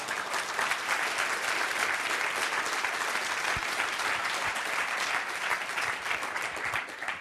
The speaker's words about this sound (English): that's for you, for a warm welcome, please give a hand.